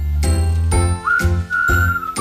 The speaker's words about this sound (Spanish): Espera, que me está diciendo. Hay una llamada. ¿Quién será?